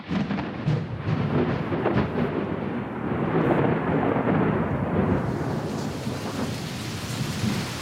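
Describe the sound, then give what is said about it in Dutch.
Steady heavy rain and thunder in Sydney, a dense constant hiss of falling rain with deep rumbling thunder rolling beneath it at an even, loud level throughout. “Het lijkt wel een soort sadistische grap van de weergoden. Want sinds Sydney deze week uit de lockdown kwam, na 4 maanden, regent het elke dag.”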